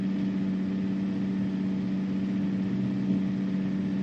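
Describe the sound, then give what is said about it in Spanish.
A bus engine drones steadily as the bus pulls over onto the road shoulder. The low, even hum holds at a constant level throughout, with no clear change in pitch. “Poco después el autobús se detiene en el arcén.”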